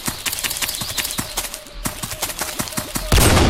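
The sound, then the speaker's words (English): A shotgun fires in a video game: many sharp, loud blasts in quick, regular succession, ending on a heavier burst. “This is the shotgun.”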